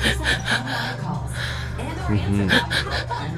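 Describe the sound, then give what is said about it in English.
A woman acts out the sudden gasps for breath she experienced during labor and for months after giving birth: a run of sharp, breathy intakes of air, with a short voiced sound in the middle of the series. “my body would spontaneously gasp for breath”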